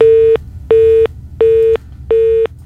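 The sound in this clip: Telephone disconnect tones after a dropped call: four evenly spaced beeps at a steady mid pitch, each about a third of a second with equal gaps, loud and alone with no talk.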